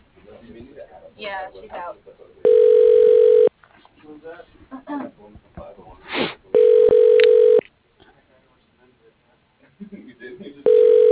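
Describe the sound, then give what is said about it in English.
Ringback tone on a telephone line while a call is transferred to an extension: steady mid-pitched tone bursts, two full ones and the start of a third, with voices talking in the gaps between them. “Please hold while I transfer your call to that extension.”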